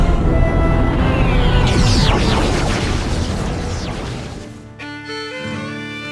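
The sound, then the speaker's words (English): A deep, roaring boom of chemically propelled missiles fired in space, a loud rumbling blast that holds for several seconds, thins out, then drops away into quieter tonal sounds. “Chemically propelled missiles, still commonly used by early space travelers, are adequate for some purposes.”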